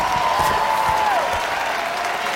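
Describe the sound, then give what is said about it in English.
Crowd noise from spectators on their feet at an American Gladiator competition, cheering a contender through the Eliminator course. A loud, steady wash of applause and voices holds at an even level throughout. “The crowd on their feet cheering on Venus as she climbs her way to the finish.”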